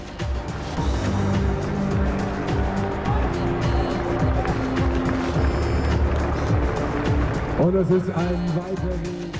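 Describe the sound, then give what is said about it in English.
A BMW 3 Series 328i with a 245-horsepower engine driving, its steady engine drone shifting in pitch throughout, while a voice talks over it. “a true BMW 3 Series. And this one is a 328i in Melbourne red, as it comes out with 245 horsepower.”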